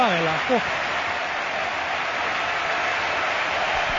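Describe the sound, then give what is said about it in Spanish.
Stadium crowd gives a football hat-trick scorer a sustained ovation: a broad, steady roar of cheering and applause holding even throughout, with a brief voice at the start. “Escuchamos a Noeta. Es la ovación de Noeta para el autor de los 3 goles esta noche de la Real Sociedad.”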